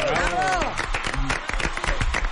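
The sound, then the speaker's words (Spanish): Studio audience applause on a Spanish-language talk show, heard as scattered claps mixed with voices. It is brief and moderately loud, with people talking over the clapping throughout. “Un aplauso para los buenos hombres.”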